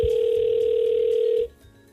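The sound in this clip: A telephone ringback tone sounds as someone redials a person they have been trying to reach. It is one steady, continuous tone lasting about a second and a half, then it cuts off into quiet.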